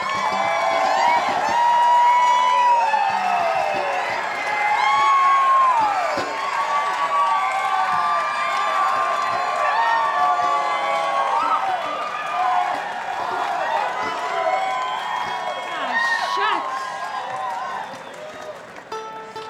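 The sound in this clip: An audience cheers and applauds to welcome a singer onstage in her hometown, a dense, steady wash of clapping, whoops and shouting voices that swells and dips slightly but never drops out.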